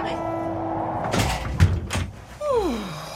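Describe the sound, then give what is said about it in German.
A door is pushed shut in a draughty room, giving a few dull thuds and clunks of moderate loudness. “Dann musst du aber auch die Tür zumachen”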